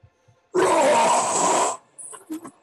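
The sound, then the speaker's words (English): A voice imitating a huge roar, a loud, raspy, sustained blast lasting over a second, followed by a few brief, quieter vocal sounds. “I'll walk up to the stage. And I'll do a huge roar.”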